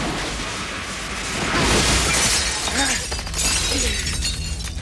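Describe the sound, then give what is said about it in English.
Glass doors shatter as a man is thrown through them, a loud burst of breaking glass swelling mid-clip within a dense, noisy wash of sound. “Mike's suddenly thrown through a set of glass doors.”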